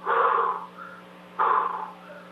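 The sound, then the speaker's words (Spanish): Crows caw outdoors, giving two harsh calls that each trail into a shorter, fainter caw. A steady low hum runs underneath. “ahora estamos escuchando más pajaritos porque los carros están un poco más guardados”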